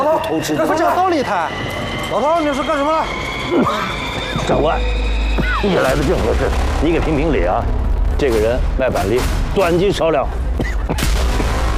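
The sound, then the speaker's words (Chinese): Gunshots ring out in a dramatized street scene in Shanghai. Several sharp cracks are scattered through the second half, mixed in with loud, agitated voices talking and shouting. “没听见枪响吗？”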